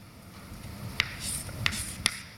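Writing on a board during a maths lecture: four faint, sharp ticks spaced unevenly over a quiet background.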